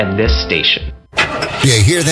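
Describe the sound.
A car engine starts after a short spoken line and a brief pause, cranking quickly into a loud rising rev that holds to the end.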